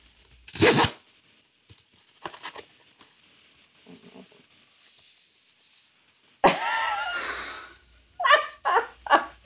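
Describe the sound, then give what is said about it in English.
Cardboard envelope being torn open: a sharp rip, then a longer, louder stretch of tearing cardboard, followed by several short ripping bursts. “she came back with this cardboard envelope. So do I get to open it now? Oh, yes, please.”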